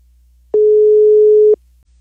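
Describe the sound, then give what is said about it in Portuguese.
Telephone ringback tone on an outgoing call: a single steady, mid-pitched hum lasting about a second. It starts and stops cleanly, with quiet on either side. “Fazer a ligação do Lebruto e não pode falar alô. Tá chamando.”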